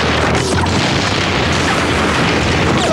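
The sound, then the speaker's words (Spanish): A grenade explodes on the shore during a beach landing under fire: a loud, sustained, rumbling roar that fills the whole stretch without a clear single onset. “Una granada estalla en la orilla.”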